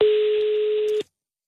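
A steady, mid-pitched telephone line tone sounds on an outgoing call, holding evenly for about one second before cutting off abruptly into silence.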